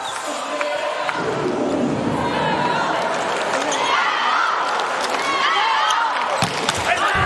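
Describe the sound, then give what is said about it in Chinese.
Arena crowd noise fills a volleyball match against Slovenia during a serve. Loud, sustained cheering and shouting is punctuated by a few sharp ball hits, and a commentator talks underneath. “看着莱昂的发球。”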